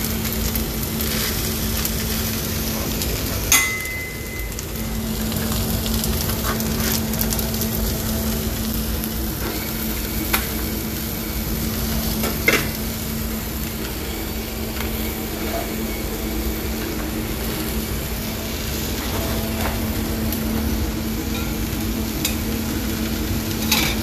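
Bacon, egg and cheese frying in a pan give off a steady, dense sizzle that hisses evenly through the whole stretch, with a few faint clicks over the crackle.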